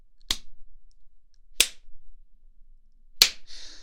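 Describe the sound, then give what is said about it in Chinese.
Three sharp, loud face slaps are delivered harder on command, evenly spaced about a second and a half apart. A brief hiss trails the last one. “打得太轻了，重新来。不想被鞭子抽的话，就用点力，”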